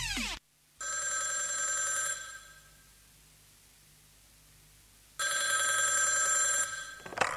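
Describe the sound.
A telephone bell rings in two bright, metallic bursts separated by a few seconds of quiet, each burst a rapid continuous jangle.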